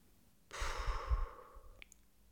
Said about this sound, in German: und ruhig ausatmen. Einatmen und ausatmen.